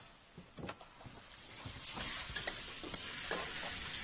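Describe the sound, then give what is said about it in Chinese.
Stir-frying vegetables sizzle loudly in a pan, with a steady hiss of frying and a few sharp clanks and scrapes from stirring. “那行，那我炒菜呢啊”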